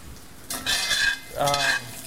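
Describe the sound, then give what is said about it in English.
Stirring and scraping of sausages frying in a pan, with two bursts of stirring over a steady sizzle. “Trying to stir my sausage while I do this.”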